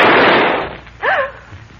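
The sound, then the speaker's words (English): A single gunshot-like blast opens sharp and loud, its noisy tail fading over about a second, then a brief voiced exclamation follows. “Who fired that shot?”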